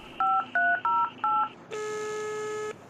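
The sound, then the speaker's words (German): A telephone number being dialed: four short, evenly spaced touch-tone beeps, then one longer steady tone. “Moment, ich muss erst noch Tarek anrufen.”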